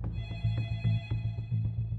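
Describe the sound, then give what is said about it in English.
A family's telephone rings at home in 1986 North Carolina. Its faint bell gives rapid, evenly repeated rattling strikes over a low buzzy hum, with no voices. “35-year-old Emery LeHue and his family get a phone call.”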